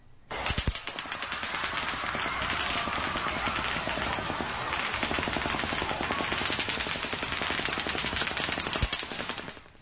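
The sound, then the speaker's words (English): Rapid automatic gunfire opens a shooting near Mandalay Bay: a loud, dense, unbroken stream of reports runs almost the whole clip, with a couple of sharper cracks standing out near the start and the end. “From the timing, we know this is the first automatic round at the very beginning of the shooting.”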